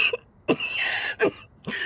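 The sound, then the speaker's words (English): A man with a fresh sore opened on his neck coughs a few times, giving harsh, abrupt bursts with breathy, hissing noise between them. “coughed as he itched at a fresh sore that had opened on his neck.”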